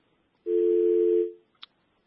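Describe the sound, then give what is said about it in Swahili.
A telephone dial tone after a caller's line drops: one steady, low, unwavering tone lasting just under a second before fading out, followed by a single short click. “Inaonekana mbaya line yake ya simu imepotea, lakini tutamtafuta tena.”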